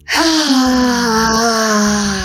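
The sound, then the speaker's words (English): A long, deep exhale let out with voice, a steady sighing tone that holds almost level for about two seconds after a quick start and stays loud throughout. “So we end, as you know, letting out a deep breath.”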